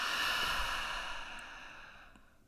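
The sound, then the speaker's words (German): Deep breathing during a guided breathing exercise: one soft, airy breath drawn out slowly and gradually fading away, quiet and alone. “lass uns hier einmal alle gemeinsam nochmal tief ein- und ausatmen”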